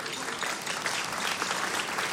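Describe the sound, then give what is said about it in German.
Audience applause: a steady, fairly faint wash of many hands clapping together, unbroken for the whole stretch. “Die müssen jetzt nicht jedes Mal klatschen, wenn sie was verstanden haben.”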